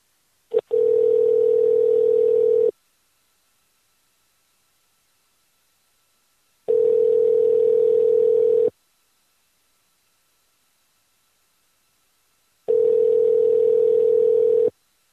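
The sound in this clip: Telephone ringing tone while a call is being placed: three steady, mid-pitched tone bursts of about two seconds each, separated by roughly four-second silences.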